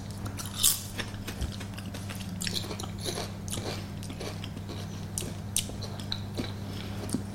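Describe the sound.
Someone chews crunchy sugar kelp seaweed chips with many quick, faint, crisp bites and crunches over a low steady hum. No talking is heard.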